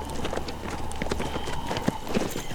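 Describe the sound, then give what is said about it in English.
Hooves clip-clop as two horses, one a Pinto and one a skewbald paint, are ridden forward along a mountain trail, producing many irregular, overlapping hoof strikes at moderate loudness over a steady background hiss. “Kuno gigged Renegade forward, heading south, Marcella urging her Pinto behind him.”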